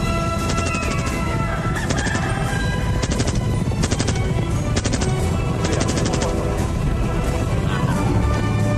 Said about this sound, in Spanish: ¡Dispara, dispara, dispara! ¡Dispara, dispara!